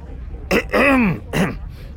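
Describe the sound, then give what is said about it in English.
A man clears his throat in two raspy, voiced bursts, the first longer and arching in pitch, the second short, with nothing else heard. “Kilori took another step forward, waited until Yiv paused for a breath, and cleared his throat”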